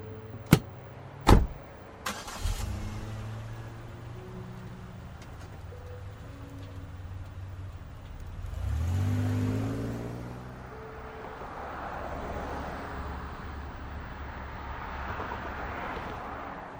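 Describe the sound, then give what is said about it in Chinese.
A car is started and driven off by its owner, who drives himself at night. A couple of sharp clicks and knocks come first, then a low engine rumble that holds steady and swells around the middle before easing back. “他让司机先回家了，今天晚上他自己开车。”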